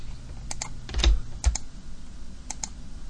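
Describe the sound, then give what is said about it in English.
Keys clatter on a computer keyboard as someone types while working in Photoshop: quiet, uneven taps with a couple of heavier strikes standing out, and no voices. “I'm going to actually use Photoshop right now. You ready, everybody? Ready. This is the sound of Photoshop.”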